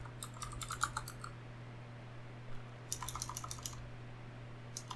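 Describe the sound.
Typing a web search on a computer keyboard: two short runs of light, quick keystroke clicks separated by a pause, faint over a steady low hum.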